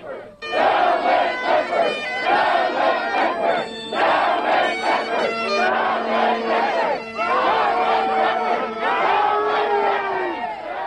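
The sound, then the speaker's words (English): A noisy crowd of protesting teachers and civil servants shouts and cheers outside a hall ahead of a Progressive Conservative rally in Lewisport, with loud, overlapping cries and whoops that stay dense and sustained throughout. “And outside the hall, a noisy group of teachers and civil servants are preparing their own arrival ceremony.”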